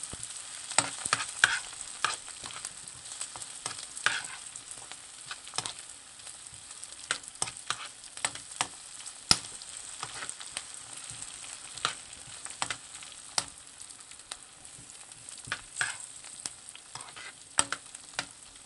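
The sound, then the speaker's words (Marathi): Onion sautéing in a pan, stirred until lightly pink: a steady, soft sizzle studded with many sharp crackles and pops throughout, with no voices. “व्यवस्थित परतून घेऊया। कांदा हलकासा गुलाबी झालेला आहे,”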